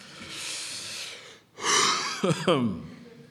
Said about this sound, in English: I'm going to slow down and take a deep breath.